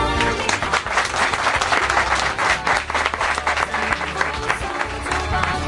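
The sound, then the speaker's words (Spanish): An audience applauds in a radio studio with dense, steady clapping that stays loud from start to finish. “Ya veréis cómo se demuestra aplaudiendo.”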